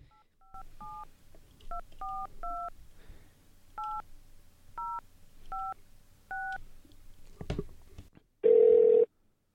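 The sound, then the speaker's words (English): A mobile phone number is dialed as keypad tones, a series of short beeps in an uneven rhythm at two alternating pitches, then a brief thump and a louder, steady tone that holds for about half a second. “All right, I'm going to dial it. Here goes.”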